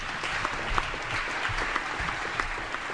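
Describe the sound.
An audience applauds to welcome an activist and writer at a counter-summit. The clapping is a dense, even patter that holds at a moderate level for about three seconds with a few sharper claps standing out.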